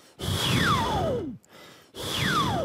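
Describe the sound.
Breathy, forceful exhales from a person changing their mouth shape during a wind-like vocal warm-up. Each airy rush carries a whistling resonance that glides steadily down in pitch. Two breaths are heard, and the second one is cut off.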